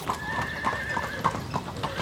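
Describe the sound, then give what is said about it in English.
Horse hooves clip-clopping, the mount a groom might ride to a Hindu wedding, a steady run of many even, sharp hoofbeats at a brisk walking rhythm with no talk over them. “These days, they might travel on a horse”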